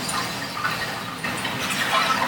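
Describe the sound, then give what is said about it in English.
Cooked noodles dumped into a pot of soup give a continuous wet sloshing and splashing hiss, fairly steady throughout and growing slightly louder toward the end. “Take the noodles that we cooked earlier. We're just going to dump them in really quick.”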